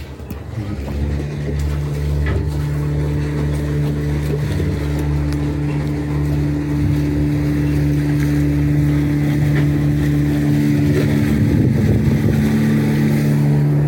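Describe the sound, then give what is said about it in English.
A motorboat passing by drones with a steady, loud engine hum full of low harmonics, wind noise brushing over it, and swelling slightly toward the end. “here comes someone coming past in their motorboat”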